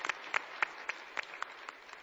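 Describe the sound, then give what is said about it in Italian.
Audience applause at a live event: a faint, sparse patter of individual claps with a few sharper peaks, with no voices over it. “Credo che questo si meriti un applauso.”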